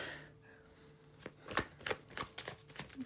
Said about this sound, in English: Let's get some more cards. It's your birthday. The awkward has the spotlight. Next card out, we have the Queen of Cups.